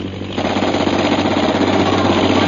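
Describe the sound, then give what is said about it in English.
Rapid, continuous gunfire from a machine gun mounted on a fighting plane: a dense, loud, steady rattle of closely spaced shots that lasts the whole clip without a break. “He's swinging the machine gun into position.”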